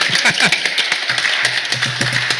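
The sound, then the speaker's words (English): Church audience applause: scattered, irregular claps of moderate loudness, sparse rather than a dense ovation. “Hey, let's give him applause.”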